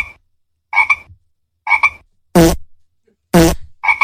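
Toads croak in short separate calls with quiet gaps between them. Several calls come as quick doubled croaks, and two are louder and harsher.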